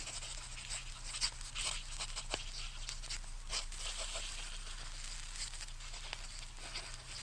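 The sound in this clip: Pen scratching across paper as a list of names is written: faint, continuous scratchy strokes with small irregular ticks, quiet and steady throughout.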